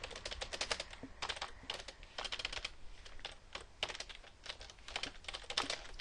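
Keyboard typing as values are entered into a web form: many rapid, faint keystrokes in an uneven but continuous stream, with no voices.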